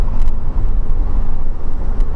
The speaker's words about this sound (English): Anyhow, so yeah, I'm driving really a lot slower than most of the other people.